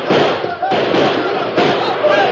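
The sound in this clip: Gunfire crackles in a shootout during an ambush on a government cash raid: a few loud, harsh bursts of shots, each followed by a rough, noisy tail, with voices present.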